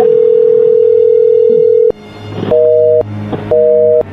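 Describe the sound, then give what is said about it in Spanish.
Telephone line tones on a call placed one last time to an unanswered number: a long steady tone, then a pause, then two short, evenly spaced beeps at the same pitch, loud and alone. “A ver, márcale por última vez.”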